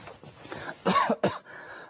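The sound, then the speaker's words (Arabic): A tired man just back from the Hajj coughs: two harsh, throaty bursts, the first longer and the second short and sharp. “عدت من الحج كنت تعبان جدا ومتعب، ما زلت الكحة اللي قاعد تسمع قاعد أفشك بها”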